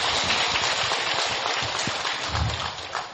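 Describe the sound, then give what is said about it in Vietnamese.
Applause from an audience at a Buddhist gathering and film screening: a dense, steady crackle of clapping that holds an even loudness and eases slightly near the end. “Xin vị dành một tràng pháo tay.”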